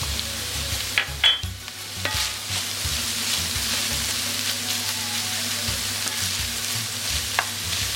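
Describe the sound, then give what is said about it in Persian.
A pizza topping mixture fries loudly in a pan on the stove as paprika powder is added. It gives a steady, dense sizzle throughout, with a few stirring clatters near the start. “در این لحظه پودر پاپریکا رو به موادمون اضافه میکنم.”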